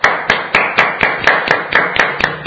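A single pair of hands claps about nine times in an even rhythm, each clap sharp and fairly loud, with no crowd and no talking.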